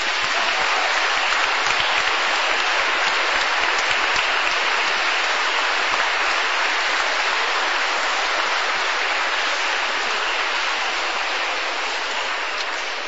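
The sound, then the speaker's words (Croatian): Audience applause after a church concert with a church choir and instrumentalists: dense, continuous clapping like heavy rain, steady and loud throughout, easing slightly near the end. “I naš crkveni zbor, molim vas još jedan pljesak.”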